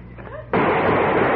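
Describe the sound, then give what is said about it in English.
A sudden loud gunshot sound effect from a radio drama bursts in after a brief voice and leaves harsh noise ringing to the end. “Oh, they got me. They shot you because you moved.”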